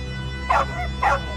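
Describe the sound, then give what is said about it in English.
Two sharp barks from a female wolf, mid-pitched and evenly spaced, stand out alone over a steady low hum. “The wolf brought them awake with her barks”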